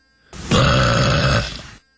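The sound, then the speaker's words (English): A woman lets out a loud, drawn-out burp lasting about a second. It is a single throaty belch heard alone, with near silence before and after. “Especially a good-looking woman should ever burp like that.”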